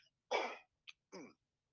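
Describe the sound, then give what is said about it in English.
Throat clearing in two rough, raspy bursts with a brief click between them, alone and fairly quiet. “I had to clear my throat there”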